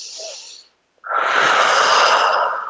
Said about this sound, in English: inhale slowly, exhale slowly, inhale slowly, exhale slowly. And they're really slow breaths.